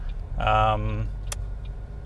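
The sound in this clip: Low, steady rumble of a car on a short morning commute to work, with a brief harmonic tone near the start and one sharp click partway through.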